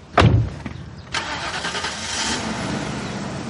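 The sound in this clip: A car engine starts after a heavy thump as its door is shut, then catches and runs with a steady, moderately loud rumble to the end.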